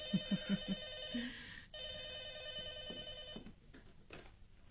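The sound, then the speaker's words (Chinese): A telephone rings with a call from Hong Kong, sounding as two back-to-back bursts of a bright, steady, tonal ring, followed by a few faint knocks and no talking. “师母，电话是老爷从香港打来的。”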